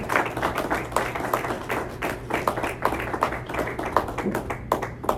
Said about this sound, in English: Let's go ahead and give Pastor Shatsha a good welcome, a hand of welcome.